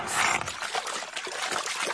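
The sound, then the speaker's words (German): Wet, gurgling slurp as a cartoon dinosaur sucks a pond dry to recover a dropped key, a dense, steady rush of trickling water noise lasting the whole stretch without pauses or voices. “Kali schlürft den Teich aus.”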